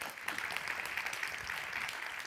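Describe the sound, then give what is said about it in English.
Audience applause, a dense steady wash of many hands clapping, fairly faint and continuous through the short stretch. “Well, I think that is probably a good moment to clap.”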